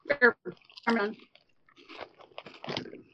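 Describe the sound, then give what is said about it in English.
Crisp crunching of pancetta and garlic flavored Pringles potato chips, brittle bites mixed in with people talking. “I guess we would say the garlic was too much in the first Pringle, but, like, once we built up a tolerance, it became better. Yeah, I'm moving on to pancetta and garlic.”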